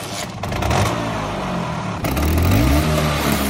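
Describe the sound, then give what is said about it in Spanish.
Vespa scooter engine running loud with a buzzing mechanical drone, jumping in level partway through and briefly revving higher before settling. “Es el motor de una Vespa, el icono de toda una generación.”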